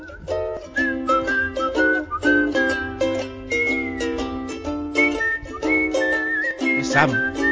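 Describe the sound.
A person whistles a bright, lively melody in a video game soundtrack, heard clearly over steady instrumental accompaniment for the whole stretch.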